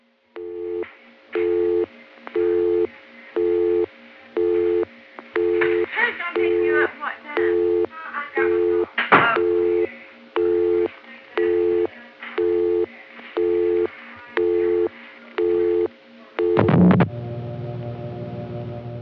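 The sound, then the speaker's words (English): Telephone busy signal heard when dialing a busy line through a Western Electric PBX: a steady run of many even on-off tone bursts about once a second, with brief irregular noise between some pulses and a sharper burst near the end. “I didn't do anything but dial a busy number, and that busy signal always is transparent like that.”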